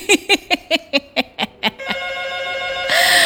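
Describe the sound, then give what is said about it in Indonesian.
A telephone rings in eight quick, evenly spaced trilling pulses, then holds a steady tone before a louder burst of hiss at the end. “Oke, kita coba angkat telepon kembali.”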